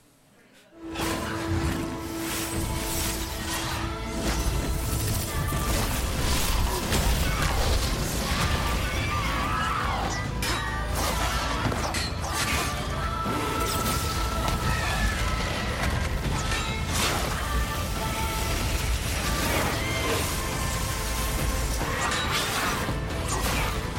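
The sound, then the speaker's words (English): Video game sound of fireballs being shot at monsters, a dense, unbroken wash of crashing, whooshing and thudding effects that stays loud throughout. “Now, you do shoot fireballs in what we're about to see right here, but what is happening? Who are you shooting fireballs at? Well, some of these monsters who I am not, in fact, killing, but I am really shooting the fireballs”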